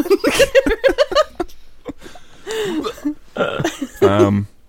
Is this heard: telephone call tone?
no